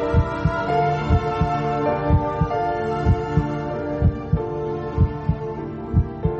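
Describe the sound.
A heartbeat as heard from inside a mother's womb, thudding steadily in low double beats about once a second beneath a sustained tonal hum.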